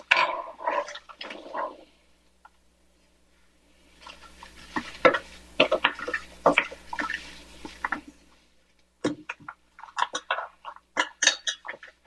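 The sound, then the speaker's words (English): Stirring a thick, stiff mixture in a pot: wet, scraping swishes come in irregular bursts, pausing for a quiet stretch before resuming in choppy strokes. “All right, let me stir this up.”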